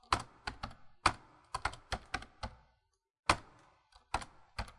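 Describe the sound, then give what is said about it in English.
Computer keyboard keys pressed in a run of sharp, uneven clicks, then a brief pause and a few more presses, with no talk. “Press enter. Where? There. Nothing is happening. That's because you are pressing the shift button”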